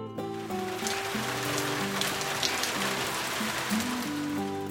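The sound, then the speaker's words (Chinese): Steady rain patters on leaves in a dense, even spray of tiny drops that continues throughout, with soft music playing faintly beneath. “我听到雨水打在树叶上的声音，啪嗒啪嗒的。”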